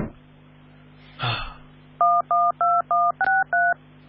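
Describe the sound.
Keypad tones as a telephone number is dialed: six short, evenly spaced dual-tone beeps in quick succession. A brief breathy noise comes just before them, and a steady low hum runs underneath.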